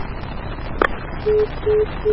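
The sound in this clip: Telephone tones on a call-in line after a caller hung up: a brief click over faint line hiss, then short, low, evenly spaced beeps repeating steadily.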